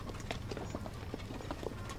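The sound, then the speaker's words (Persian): Hooves of a horse pulling a cart clip-clop in a steady, even rhythm as it arrives at a house, with many soft, moderately faint hoofbeats. “ولی حالا چرا توجهشون به گاری که میاد تو خونه جلب میشه”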